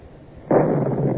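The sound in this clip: A muzzle-loading cannon fires a shell, its powder fuse lit by a linstock, as a radio drama sound effect: a single sudden loud blast that carries on as a sustained rumbling roar to the end.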